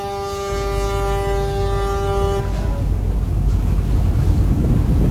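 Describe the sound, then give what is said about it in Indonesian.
A passenger boat's engine roars on a morning sea crossing to an island. The loud, continuous low rumble carries a steady tonal hum at first, then gives way to a broad, wind-like rushing noise. “Deru mesin kapal menghiasi perjalanan pagi itu ke pulau”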